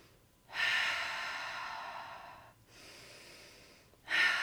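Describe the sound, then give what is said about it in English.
Slow, deep breathing done to calm the nervous system: a long, airy breath, a softer and quieter one after it, then a third breath starting at the end, steady and unhurried with no talking. “You're going to breathe really slow, like,”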